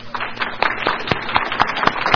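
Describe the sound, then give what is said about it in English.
Applause from a classroom audience honoring military veterans: many quick, overlapping hand claps forming a dense, steady patter at moderate loudness for the whole stretch, with no voices standing out. “We want to give you applause in this classroom.”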